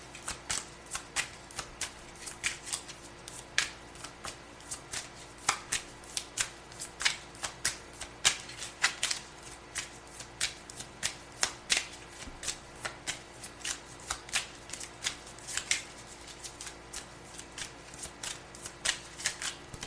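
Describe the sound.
A Golden Girls card deck is shuffled by hand, producing many crisp riffling snaps at a steady, slightly uneven pace with no talking.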